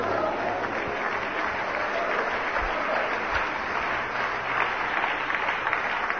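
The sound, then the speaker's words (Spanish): A church audience applauds during a sermon, a dense, even wash of many hands clapping at once that holds steady throughout. “Espero que ese aplauso es porque está entendiendo esto, ¿no?”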